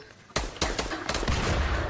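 Video game gunfire in Fortnite: a few sharp, loud shots crack out, then give way to a dense, sustained burst of rapid fire that continues to the end.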